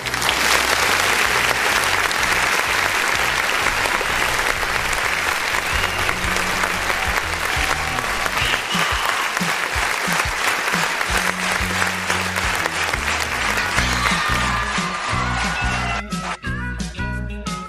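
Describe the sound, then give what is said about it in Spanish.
An audience applauds a singer with dense, continuous clapping that stays loud and steady for the whole stretch, then thins out at the very end. “Un aplauso para él.”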